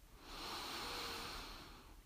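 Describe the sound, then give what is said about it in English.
A single slow inhale through the nose, a soft airy hiss that swells gently and fades, faint and alone with no talking. “And now start to just listen to your breath. Listen to the noise your nose makes as it breathes in the air.”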